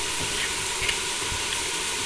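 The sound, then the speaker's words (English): Chopped tinned tomatoes frying in a pan give off a soft, steady sizzling hiss that runs unbroken and fairly faint throughout, with no talking. “So just let it fry a bit. Right, next thing I'm going to do is I'm going to put in 8 tinned tomatoes.”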